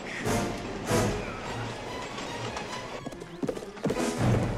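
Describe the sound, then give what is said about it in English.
Horses gallop in a chase onto a train, with rapid, loud hoofbeats over a rushing wash of noise. A horse whinnies, and the hooves grow more clipped and uneven toward the end. “Indiana Jones Last Crusade opens with a horse chase onto a train”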